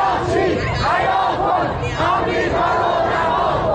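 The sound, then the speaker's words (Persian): Regime supporters chant slogans in unison outside the Foreign Ministry office in Mashhad, Iran. Loud crowd voices rise and fall in a repeating rhythmic cadence, phrase after phrase, without a break. “شعار شماری از هواداران نظام در مقابل نمایندگی وزارت خارجه در مشهد که شنبه شب به تهران هم رسید.”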